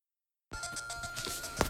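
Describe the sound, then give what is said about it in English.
A phone ringtone from an incoming call starts suddenly after silence: faint, quickly repeating electronic tone pulses in an even rhythm that carry on for just over a second, with a slightly brighter note near the end. “If you just heard a weird interruption, listeners, I got a phone call that disrupted me for a moment.”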